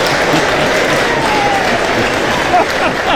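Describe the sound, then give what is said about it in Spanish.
A loud ovation of sustained applause from an audience, the clapping dense and even throughout, with a brief whistle and a short burst of louder shouting near the end. “Cuando hay una ovación de esas, te tenés que subir a la mesa.”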